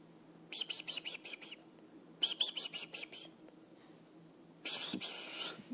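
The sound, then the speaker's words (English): Birds sing outside an open window in three faint bursts of quick, high chirping twitter separated by short pauses. “if you want to hear the birds sing, it's quite simple. Turn all of the noise off. Open the windows. Still yourself.”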